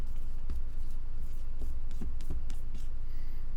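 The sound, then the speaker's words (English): Pen strokes of a diagram being drawn by hand, a series of short, faint, scratchy strokes at irregular intervals. “Now, if you remember, let me draw this again.”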